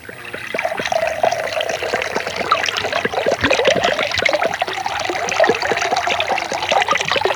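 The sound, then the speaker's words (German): Soda water pouring into a glass: a steady liquid stream laced with many crackling, fizzy bursts, loud and continuous throughout with no talk. “Willst du was trinken? Soda Wasser. Okay, ich schenke dir was ein.”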